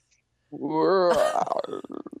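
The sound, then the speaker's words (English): A stomach rumbling: one brief, loud gurgling growl with a wavering pitch, breaking into quick stuttering bubbly pops as it fades. “Was that your stomach? Do you hear that?”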